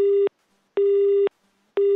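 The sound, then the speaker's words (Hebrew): Telephone busy tone sounding after a call is hung up: a steady, mid-pitched electronic beep that switches on and off in an even rhythm, with three beeps heard alone and silent gaps between them. “הנה, ניתק, ניתק, ניתק את הטלפון”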